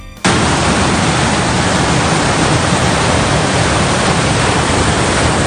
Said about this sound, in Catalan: I aquest és el so de com baixava l'aigua aquesta matinada pels carrers de Santa Bàrbara al Montsià.